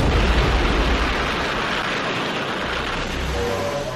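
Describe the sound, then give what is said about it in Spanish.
An atomic bomb detonated from a tower at a Nevada nuclear test site produces a loud, dense, rumbling roar with a heavy low end that thins slightly partway through while the broad noise continues steadily to the end. “de junio en un campo de pruebas nucleares en Nevada, Estados Unidos, se detona desde una torre la bomba atómica.”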